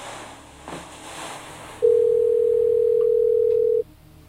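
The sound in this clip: A voice assistant places an outgoing call, and a single steady telephone ringing tone sounds for about two seconds before it stops and the line falls quiet.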